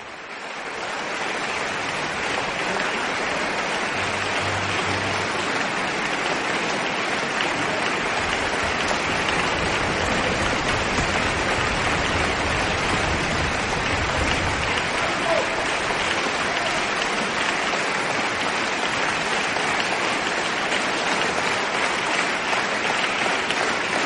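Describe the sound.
Audience applause follows an Orchestre de Chambre de Lausanne concert of Bizet's L'Arlésienne music. The clapping forms a dense, even wash that goes on without a break for over twenty seconds.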